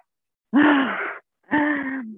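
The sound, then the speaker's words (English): A group of people take a big breath in during a morning yoga session: two long, loud, breathy intakes with a slight voiced tone, each lasting well over half a second and separated by a short pause. “maybe we should just all take a big breath in.”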